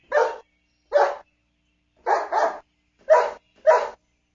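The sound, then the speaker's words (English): Dog barking: six sharp barks in an uneven rhythm, with single barks early on, then a quick pair, then two more spaced barks, each loud and clear against silence. “Dogs bark.”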